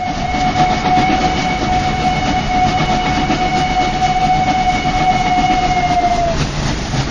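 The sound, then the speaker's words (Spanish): A train pulling into a station at the end of the line: a steady, loud rumble with a sustained whistle tone that dips and cuts off near the end. “Atención, atención. Tren procedente de Misterios y Leyendas efectuará su entrada en la vía 4, final de trayecto.”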